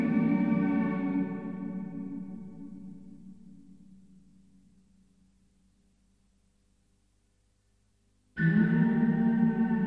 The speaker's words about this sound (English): It's some sort of a weird, run it through reverb. It's quite a haunting sort of, almost like a bit of a foghorn or something. A strange sound.